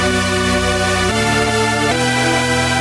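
A synthesizer patch sounds with one key held down, giving a loud, sustained, buzzy tone rich in harmonics. Its timbre shifts abruptly twice while the note keeps ringing without a break.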